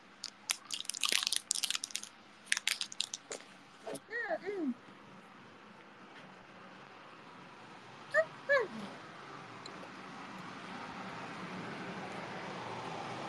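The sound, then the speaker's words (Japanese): Crunchy snacks are munched while waiting for water to boil: a few loud, crisp crunching bursts come early, then give way to a steady low hiss. “ご飯の前にお菓子食べる子、そう。だって、待ちきれないんだもん、お湯沸くまで。”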